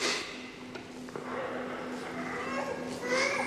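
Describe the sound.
Young children and a baby fuss and babble during a footballer's farewell speech event, heard through a dense, continuous murmur of noise with scattered higher cries and chatter.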